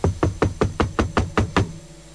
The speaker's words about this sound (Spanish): De repente, alguien golpea la puerta.